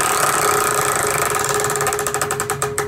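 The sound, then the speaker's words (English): A prize wheel spins with a dense, rapid rattle of ticks that gradually spread apart as it slows, each click becoming more distinct toward the end. “Let's start by spinning the wheel to see what we're going to talk about today.”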